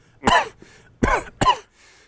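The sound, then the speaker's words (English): Three short, rough coughs from a person at a doctor's physical exam, the first standing alone and the last two close together, with faint throat noise between them. “Turn and cough.”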